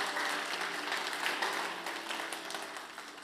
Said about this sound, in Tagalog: okay, you can clap your hands.